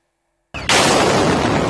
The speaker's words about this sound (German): Dieses Video zeigt, wie im Zentrum der Stadt Sumy im Nordosten der Ukraine zwei russische Raketen nacheinander einschlagen.